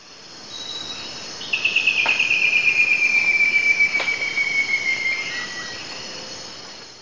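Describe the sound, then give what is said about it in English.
White-necked thrush song: a single high, thin trilled phrase that drifts slightly downward in pitch over a few seconds, heard above a steady background of chirring insects. “Three with white-necked thrush.”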